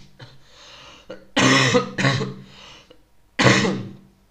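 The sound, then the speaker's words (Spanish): A person with a cough coughing: three loud, harsh, rasping bursts, the last one after a short pause, with quieter throat sounds before them. “Perdonad, estoy con la tos.”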